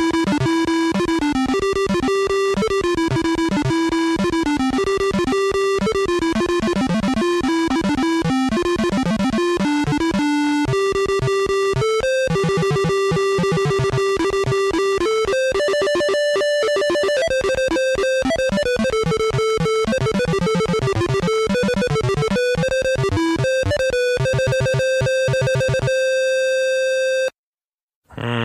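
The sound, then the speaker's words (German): Beeping PC speaker music from the video game The Bard's Tale 2, with a bass line, plays as a steady run of square-wave tones in a jaunty, tinkly melody that cuts off abruptly just before the end. “Das gelingt dem Bard's Tale 2 ganz nett und deswegen ist es ein wirklich ganz hübsches, düdeliges Stück. Und das klingt so.”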